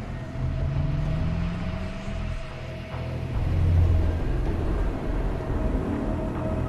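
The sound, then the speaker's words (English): Vehicle engines rumble as a car pulls out of a school parking lot and a massive pickup truck follows. A low, steady drone with faint engine tones swells louder in the middle. “Later, Claire's car pulls out of the school parking lot. In his truck, Noah follows it.”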